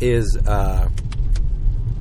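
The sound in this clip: Car interior noise while driving: a steady low road and engine rumble runs throughout, with a voice briefly heard over it at the start.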